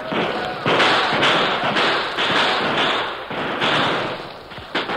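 A radio-drama gunfire volley from a battle at a circled wagon train: many loud, overlapping shots crack in quick, irregular succession. Dense bursts fill the whole stretch without a pause.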